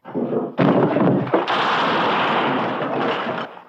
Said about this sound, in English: It's pretty fair shooting for an old married man.